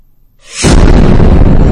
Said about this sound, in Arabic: سمعت صوت انفجار في الحمام، انفجار كبير.